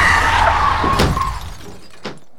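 A car speeding at about 60 km/h through a residential street skids, then crashes with a sharp shattering impact that fades quickly, followed by a faint single knock near the end.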